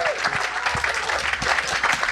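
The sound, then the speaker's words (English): An audience at a live band show at the Hope and Anchor bursts into applause, a dense, steady clatter of many hands clapping that keeps an even level throughout. “Come on up. Welcome to Hope and Anchor. Give him a hand.”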